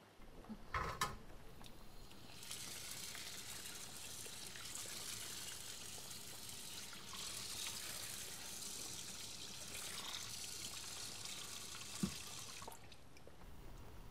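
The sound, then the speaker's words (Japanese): Tap water runs steadily into a vessel to be boiled, a continuous hissing gush for about ten seconds, with a clunk before the flow starts and a faint click near its end. “お湯を沸かすのを忘れてた。”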